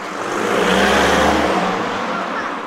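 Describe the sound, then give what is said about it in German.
Loud car traffic roars past in a town near a lakeside underpass, a broad engine rush swelling to a peak and then easing back down, with no voices. “Die Autos sind laut”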